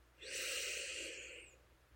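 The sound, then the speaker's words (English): A single deep, long breath in, a soft airy rush that swells quickly and then slowly fades over about a second and a half, heard alone. “Let's take a deep breath together. A nice long inhale.”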